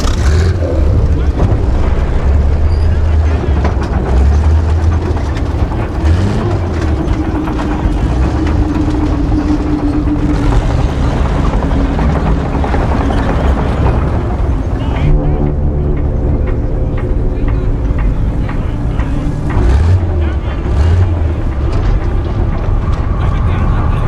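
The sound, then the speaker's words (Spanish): A heavy tank engine runs with a loud, unbroken low rumble and roar that holds steady throughout, with a faint rattling texture over the deep drone. “Enciende el motor. Puedes avanzar.”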